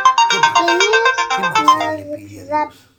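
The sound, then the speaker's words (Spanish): A mobile phone ringtone plays for an incoming call: a bright melodic electronic tune of rapid, repeating notes that rings steadily and fairly loud for about two seconds, then thins to a few softer tones and stops. “Me está llamando Magda”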